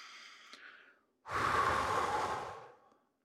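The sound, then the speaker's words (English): A strong, conscious exhale during a breathing exercise for emotional self-care. The breathy rush starts abruptly, holds loud for about a second, then tapers away. A faint tonal sound comes before it. “And maybe when you breathe out, you do that like in a conscious, strong way, like you would go like...”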